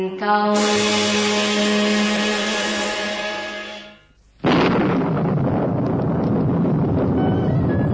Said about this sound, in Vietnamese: trời mưa gió như vậy chắc không thể nhanh chân tìm đến khách sạn kịp.